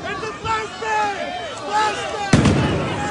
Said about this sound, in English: Oh, shit. It's a flashbang!